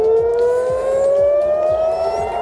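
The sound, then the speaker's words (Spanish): Air raid sirens in Jerusalem and Tel Aviv sound during an Iranian retaliatory attack: one loud, sustained wail whose pitch rises slowly and steadily throughout. “este es el sonido de las sirenas que hace unos minutos se han escuchado en Jerusalén y en Tel Aviv”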